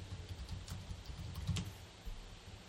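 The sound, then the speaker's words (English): Faint typing on a computer keyboard while entering a search: a few light, scattered key clicks over a low background hum, with no voices. “I typed in Allentown Plumber.”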